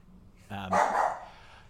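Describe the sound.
A dog gives one brief, fairly faint bark: a short voiced yelp that runs straight into a rougher, noisier burst, then dies away.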